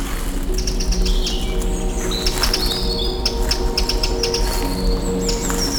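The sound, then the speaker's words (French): Forest birdsong with many high, quick chirps and calls from several birds overlapping throughout, over a steady low background. “Les sons de la forêt vous saluent.”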